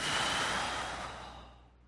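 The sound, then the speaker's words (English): A deep breath is let out in a long, faint exhale, a breathy sigh fading away over about two seconds with no other sound. “Take a deep breath. Let it out.”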